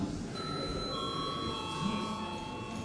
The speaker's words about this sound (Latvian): Lūdzu, zvanu.